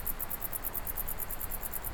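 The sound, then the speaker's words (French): Grasshoppers and crickets chirp in a southerly wind in a high alpine valley. The insects make a faint, steady stream of rapid, high-pitched pulses over a constant rush of wind. “Ambiance venteuse, vent de sud, criquet, sauterelle, pour cette carte postale.”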